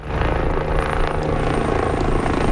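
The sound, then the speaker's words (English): A helicopter water-bombs wildfire flames in El Tiemblo, central Spain, its rotor and engine giving a loud, steady, throbbing drone that continues without a break. No voices are heard. “a helicopter water bombs flames in the central town of El Tiemblo”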